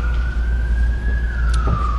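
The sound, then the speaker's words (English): An emergency vehicle siren wails during a Sunday sermon: a loud, steady high tone that rises slightly, then eases down over two seconds, above a constant low rumble. “I've got a few Sundays since the siren has interrupted me.”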